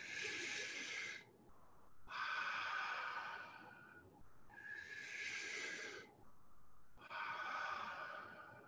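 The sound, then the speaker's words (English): Slow, deep breathing during a guided relaxation exercise: a few long, airy breaths with soft hiss, separated by short pauses and quieter exhales, with no voices. “Breathe in.”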